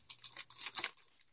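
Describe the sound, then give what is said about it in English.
Paper crinkles softly as it is folded over and crimped at the top while the wings of a paper craft are shaped. A quick run of faint, papery crackles. “So fold that over like that and crimp it at the top.”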